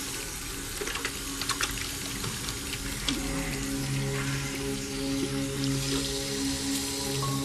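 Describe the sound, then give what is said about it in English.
Water runs steadily from bathroom taps as a man soaps and washes his hands thoroughly, giving a continuous splashing hiss that stays even throughout, with no speech. “He turns on the taps, squirts some soap onto his hands, and washes them thoroughly.”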